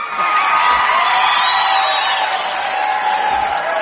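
A country music show audience cheers and whoops to welcome a guest star, a loud, sustained wall of crowd noise with high whoops that holds steady throughout.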